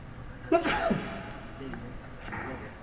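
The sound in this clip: A single sneeze bursts out during an Arabic grammar lesson. It has a sharp, loud onset and a short trailing tail, and the room stays quiet around it.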